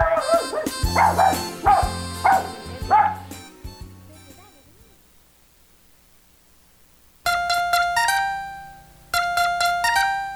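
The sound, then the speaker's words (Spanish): Little dog barking: a few short, high yaps come in quick bursts over a bouncy musical jingle. A quiet pause follows, then bright, chime-like musical notes. “Los consejos del perrito Pipo.”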